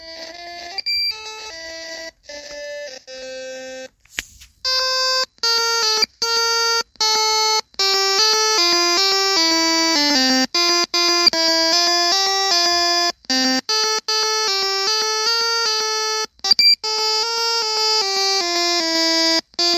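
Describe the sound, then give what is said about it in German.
Festive chiptune music from a South Pole level of a game for the Watara Supervision handheld: bright, beeping square-wave melodies and chords over a steady rhythm, with a short pause near the start and a few slightly off, glitchy notes. “Und die Musikbegleitung davon ist dermaßen weihnachtlich, dass ich dieses Spiel definitiv mit in meine Weihnachtssammlung zähle.”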